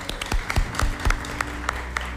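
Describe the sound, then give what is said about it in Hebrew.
Sparse hand clapping in a radio studio, with a handful of distinct, irregularly spaced claps standing out over a low steady background rather than a full crowd ovation. “רק על זה מגיע מחיאות כפיים.”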